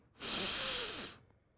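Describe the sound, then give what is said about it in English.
A single deep breath drawn in during a guided relaxation exercise: a soft, breathy rush of air lasting about a second, heard alone. “So let's all take a deep breath so we can get into this great conversation. Breathe deeply.”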